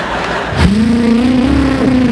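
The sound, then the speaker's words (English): Engine of a car being driven fast, revving with a steady roar whose tone climbs in pitch over a constant rushing noise. “What the hell are you driving like a maniac for?”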